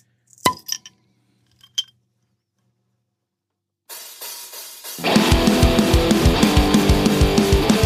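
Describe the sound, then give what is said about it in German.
Glass clinks as a bottle is opened: a few sharp, bright clinks, then a pause, a rush of noise and loud music with a steady beat. “Ich mache die Flasche auf, bevor die Musik kommt.”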